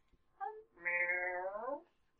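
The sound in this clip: A voice imitates a cat meowing, playing a huge tortoiseshell cat. A short chirp is followed by one long, quiet, drawn-out meow whose pitch drops at the end.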